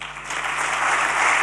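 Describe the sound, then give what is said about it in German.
Audience applause after a speech of apology, a thick, continuous crackle of many hands clapping that swells slightly in volume across the short clip. “Der Applaus nach dieser Entschuldigung will nicht enden.”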